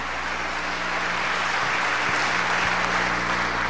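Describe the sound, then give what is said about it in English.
Audience applause at a Nation of Islam mosque gathering: a dense, even wash of many hands clapping that holds steady throughout, with a low hum running underneath. “Give yourselves another tremendous hand.”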